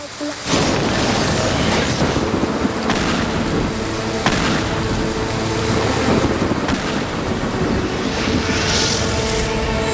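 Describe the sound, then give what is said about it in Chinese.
A video-game storm with rain and thunder: a loud, dense roar of wind and rain runs steadily throughout, with deep booming rumbles rising now and then. “啊，风暴又把台风眼给堵住了。”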